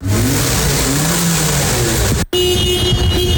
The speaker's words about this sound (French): Nous sommes à Plaine-Leuzon dans un centre de contrôle technique où plus de 300 véhicules passent chaque jour leur fitness.